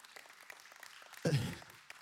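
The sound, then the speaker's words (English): A golf clap from a church audience: a soft, polite burst of applause that starts abruptly, fades within about half a second and is quiet overall. “it's Masters weekend, and that was a good golf clap.”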